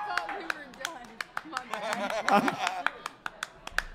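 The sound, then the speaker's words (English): Scattered claps from an audience at a live show at Live Oak in Nashville: sharp, irregular hand claps spaced through the stretch, mixed with talking voices. “Round of applause.”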